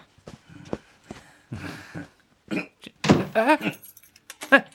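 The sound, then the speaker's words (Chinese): Keys jangle and a lock clicks as a father locks a door, shutting his son inside a carpentry workroom: several sharp metallic clatters and knocks, followed by a brief voice. “阿爸，您怎么锁门呢？阿爸，阿爸，您放我出去！”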